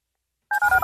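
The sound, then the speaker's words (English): Telephone dialing tones: a quick run of a few short, clipped, steady beeps in close succession after a brief silence, with no talk. “Dial the phone.”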